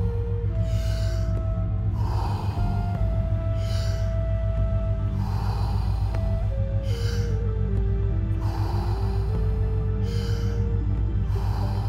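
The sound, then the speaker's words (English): Deep, continuous breathing moves in and out in a circular rhythm with no pause between inhale and exhale. Many breaths sound over soft, sustained musical tones that shift pitch slowly underneath. “fully in and letting go. Just keep on going. No pause between inhalation and exhalation.”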